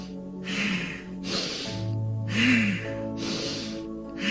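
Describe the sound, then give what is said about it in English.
Forceful breathing through the nose, exhaling then inhaling at about one second per breath, producing a steady rhythmic series of sharp, airy breath bursts with no talk. “Now we're going to begin breathing by forcefully exhaling through our nose and then forcefully inhaling at a rate of 1 to 1, 1 second to one breath. So it'll sound something like this.”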